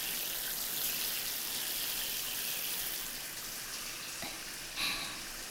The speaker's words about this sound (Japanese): さて、泡をきれいに流し落として、